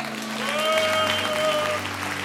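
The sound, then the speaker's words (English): A church audience claps during a worship service: steady, dense hand clapping that holds at an even level throughout, over sustained musical tones. “Give the Lord a hand”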